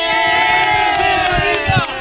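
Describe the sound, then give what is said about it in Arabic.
A group of Moroccan visitors on a trip to the Merzouga desert cheer and whoop together, a loud burst of overlapping voices rising and calling out with an excited, chant-like ring. “لي فان ديالنا اللي كنقول لهم صفقوا عليهم، ديروا السلام وديروا لهم التحيه.”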